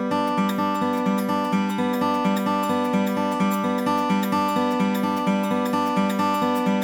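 Acoustic guitar fingerpicked in a forward-backward banjo roll on open strings, a steady, even stream of quick, bright repeated notes in a looping pattern, heard alone without talk.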